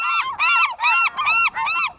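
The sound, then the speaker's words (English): Gulls calling in late fall or early winter: five loud, harsh, nasal calls in quick succession, each call slightly arched in pitch, with no other sound around them. “late fall or early winter poses the puzzle of identifying gulls.”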